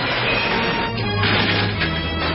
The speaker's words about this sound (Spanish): El furgón choca contra el coche de Cruella y los dos se destrozan.